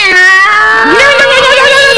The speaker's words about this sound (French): Lucifer, Lucifer, mon chat, viens ici, s'il te plaît.